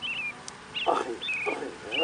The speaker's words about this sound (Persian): این احتمالا الان یه بلبلیه که صدای من شنی، احتمالا یا بلبل ماده است یا نره بره دنبال جفت میگرده.